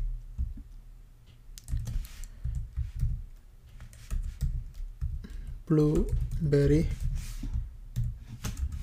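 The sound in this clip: Typing on a computer keyboard while HTML code is entered, heard as many quick, irregular key clicks. The clicks run throughout, and a voice speaks briefly partway through.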